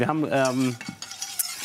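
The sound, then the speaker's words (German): A utensil stirs flour into foamy, lightly browned nut butter in a pan, making brief, moderately quiet scraping and clicking sounds. “Ich habe hier schon mal ein bisschen Butter aufschäumen lassen und auch so ganz leicht rösten lassen. Da spricht man ja auch von Nussbutter. Und da rein habe ich jetzt das Mehl eingerührt.”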